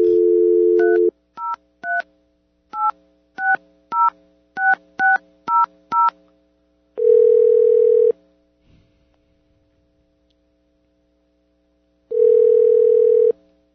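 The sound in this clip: Telephone dialing a number: a short dial tone, then a quick string of touch-tone beeps, followed by two long ringing tones separated by a stretch of silence.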